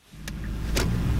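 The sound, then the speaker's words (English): Low engine rumble inside a delivery truck at night on narrow alleys in Incheon. The rumble is steady, with two brief faint clicks above it and no voices. “It is 11 p.m. and I'm riding in the passenger seat in Kim's delivery truck. The 35-year-old weaves his truck around the narrow alleys here in Incheon City, west of capital Seoul”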